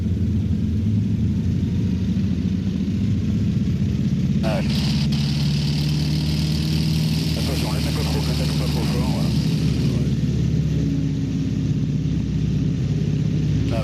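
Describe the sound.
A light airplane engine runs at full power for takeoff from runway 06 on a flight from Dakar to Saint-Louis. It makes a loud, steady low drone and roar, with a brighter hissing layer swelling through the middle.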